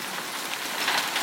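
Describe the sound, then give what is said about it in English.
Pea-sized hailstones falling: a dense, continuous crackling patter, steady and fairly loud, with no voices. “Oh my God, it's getting worse. I think it's hail. It is hail. Yeah, it's hail. I'm catching the hailstones in my hands.”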